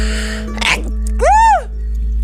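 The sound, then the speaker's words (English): A single sneeze, a quick breathy intake followed by a loud voiced burst, heard over a steady low hum. “that was a sneeze from beyond”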